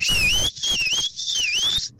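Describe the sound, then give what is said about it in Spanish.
A person whistles a family call signal, used to find relatives in a crowded store. Three loud, high, warbling phrases follow one another with short breaks, each wavering up and down in pitch, alone without talk. “O hasta en un Walmart que se desbalaga uno y para encontrarnos nos chiflamos así como te dije.”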